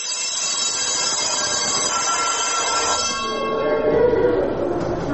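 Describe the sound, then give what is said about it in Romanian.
A school bell rings for the start of class: a loud, continuous electric ringing that runs unbroken through the whole clip, with its steady metallic tone shifting slightly partway through. “A sunat la clasă, iar holurile școlii sunt din nou pustii.”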